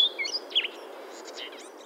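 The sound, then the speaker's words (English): Blue-headed vireo song in Acadia National Park, Maine: short, high chirped notes and quick sweeping phrases, fairly faint over a steady low background. “Birds like the blue-headed vireo”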